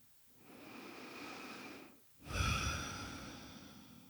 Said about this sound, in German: Nimm ein paar tiefere Atemzüge ein und aus.